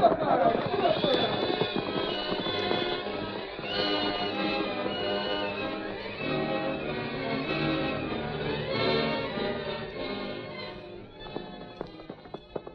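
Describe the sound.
Galloping horses as a sound effect in a western radio drama: a fast, continuous patter of hoofbeats that runs steadily for about eleven seconds, then breaks into scattered clops near the end.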